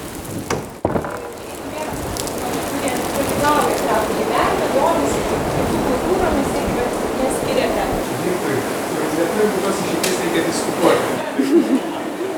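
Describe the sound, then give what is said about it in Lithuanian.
Rain drumming on a farmstead barn during a gathering: a dense, steady hiss of patter that stays at an even, fairly loud level throughout. “Linos Leparskinės pranešimas apie karaimų bendruomenę palydėtas lietaus gaudesiu, ne tik aplodismentais sodybos kluone”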